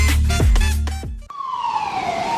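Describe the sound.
A river ambulance siren gives a steady, loud wailing tone that slowly drifts lower in pitch, following a brief burst of mixed sound at the start.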